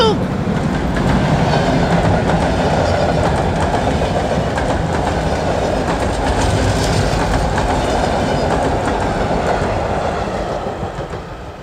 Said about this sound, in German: Der D-Zug!